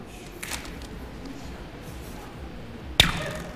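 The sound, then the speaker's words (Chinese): A rubber band snaps once near the end to imitate an arrow being shot, a sharp, bright twang that quickly fades, over a steady low hiss. “哦，就是皮筋模拟出来的声音。”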